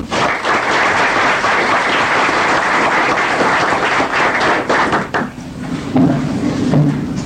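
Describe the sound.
Audience applause welcoming special education teachers in a state senate chamber. Dense, steady clapping holds loud for about five seconds, then thins and dies away.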